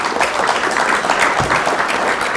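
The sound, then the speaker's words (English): Audience applause greeting a Bank of America executive at a company event: a dense, steady wash of many hands clapping that holds an even level from start to finish. “She gets more of an applause than you.”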